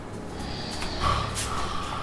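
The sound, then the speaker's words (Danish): A man snoring while lying in the living room of a rented apartment, a faint breathy rasp with one stronger snort near the middle. “Men nu ligger han i stuen i den lejlighed, vi har lejet og snorker som en bjørn.”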